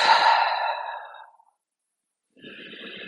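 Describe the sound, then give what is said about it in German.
A forceful exhale through the mouth during a guided breathing exercise: one long, loud, breathy rush of air that fades out over about a second and a half, followed by silence and then a softer breathy sound. “ganz bewusst atme einmal durch den Mund ganz kräftig”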